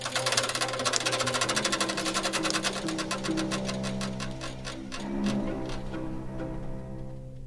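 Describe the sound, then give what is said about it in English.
Clattering of a book-sewing machine as eight punches pierce each signature from below and eight needles stitch it with thread from above, giving a fast, steady mechanical chatter of regular beats that softens slightly toward the end. “8 punches come up from underneath and poke holes in the signature, and 8 needles come down from the top, and that's sewn.”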